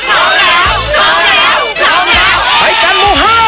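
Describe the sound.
Crowd of fans in a fan club cheering: loud, shrill, sustained screaming and shouting from many high voices filling the whole clip.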